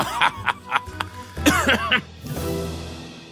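Coughing and throat clearing as someone clears something stuck in the throat: a run of short, rough bursts, then a longer hoarse rasp that fades out.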